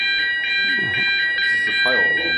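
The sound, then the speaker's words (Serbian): A fire alarm goes off during a foreign guest's speech at a gathering in Belgrade, sounding as a steady, piercing high tone throughout while voices keep talking underneath. “Tokom govora jednog od gostiju iz inostranstva, uključio se protivpožarni alarm.”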